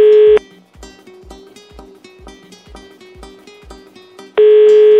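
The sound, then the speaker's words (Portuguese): A telephone dial tone sounds as a call is placed: a steady mid-pitched tone, then a quick run of many short, regular ticking pulses, then the same steady tone returns, loud and alone. “Vou ligar pro Danilo.”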